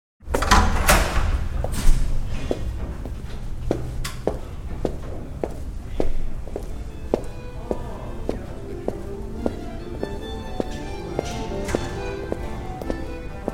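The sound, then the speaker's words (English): Footsteps walk down the main entrance hall of a brand-new building toward a staircase. Many steady, evenly spaced steps tap along at a walking pace over a low background hum. “taking my block-long daily walk down the main entrance hall of our brand-new building to the staircase to our office and the second floor”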